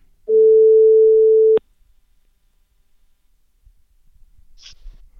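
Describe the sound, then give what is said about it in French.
A telephone call rings on the line as a single steady ringback tone, about a second and a half long and fairly loud. Near-silence follows, with only faint rustling. “Alors on l'appelle tout de suite.”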